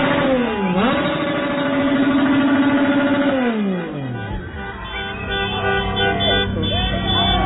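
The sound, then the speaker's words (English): Motorcycle engine revving outside a hotel at night, its loud drone dipping, climbing and holding steady before sliding lower and settling into a rougher idle-like rumble. “That was a motorcycle. Their regular motorcycle.”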